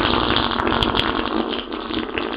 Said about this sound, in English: Did you just fart? Yes, I'll admit it.